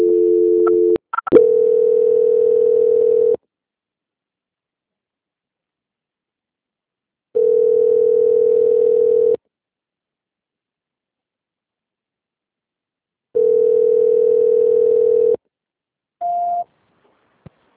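A telephone call being transferred gives a steady, mid-pitched electronic tone in three long pulses of about two seconds each, separated by silent gaps. Brief clicks and a short dual tone come at the start, and a short higher beep comes near the end.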